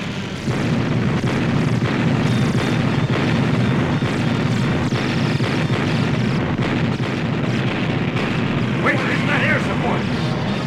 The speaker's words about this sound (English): Battery, open and fire!